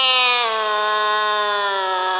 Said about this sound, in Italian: Stavo aspettando il metrò quando un tremendo miagolio felino mi fece sobbalzare.